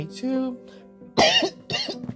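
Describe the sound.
A person coughs and clears their throat, two rough, harsh bursts following a brief stretch of voiced speech.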